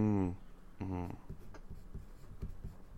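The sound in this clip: A pen writes on floppy A7 blank note cards, making short, scratchy strokes and light taps after a brief bit of talking at the start.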